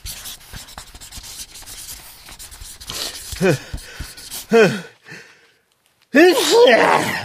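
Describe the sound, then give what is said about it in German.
A pen scratches across a sheet of paper in quick, rubbing strokes for a few seconds. Breathy vocal sounds and laugh-like noises from a person follow. “ich will doch aber auch was auf ein Blatt schreiben”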